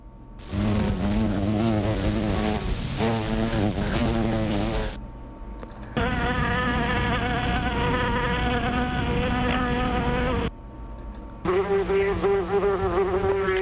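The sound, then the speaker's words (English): Insect buzzing in three separate sustained bursts with short gaps between them: first a bumblebee with a deeper drone, then a second bee, and last a yellowjacket. Each buzz is steady and loud. “And there you heard three in succession, three B sounds. And the first one was actually the bumblebee, which is sort of the deeper sound. The final one that you heard is a yellowjacket,”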